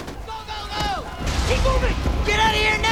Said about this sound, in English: Other troops fire at the creature. Troops pump ammo into the arachnid, which is crushing the reporter.